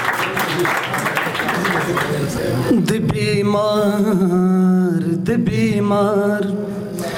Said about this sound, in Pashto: احسان ارمان دې راشي، چک چک ورته وکړئ، ډېر ګلابي شاعر دی.